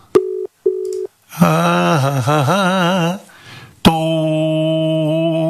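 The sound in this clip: A phone call rings while waiting to be picked up: two short beeps, then a warbling melodic ringing tone, then a long steady tone, all fairly loud.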